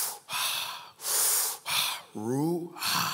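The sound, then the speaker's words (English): A voice imitates breathing, sounding out the Hebrew word ruach as several breathy, hissing exhalations, one of them carrying a voiced, rising tone. “That word spirit in the Hebrew is ruach. And when you say it, it's supposed to mimic the act of breathing.”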